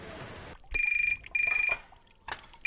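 A telephone rings in two bright, trilling electronic bursts with a rapid pulsing rhythm. A rush of running water comes before them, and a few soft clatters follow.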